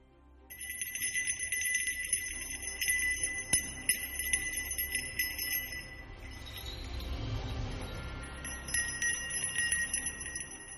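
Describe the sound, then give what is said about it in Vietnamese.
A silver hand bell being shaken and rung gives a sustained, bright, shimmering jingle with high ringing tones that carry through the whole clip, over a soft low rumble. “Trang Pha nói đoạn thì cười lớn, chuông bạc trong tay rung lắc, cờ phiến bay múa phần phật, thả ra linh lực.”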